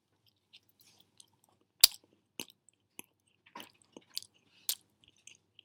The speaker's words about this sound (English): I don't know if you can hear me eating the brownie, but I'm trying to eat this brownie.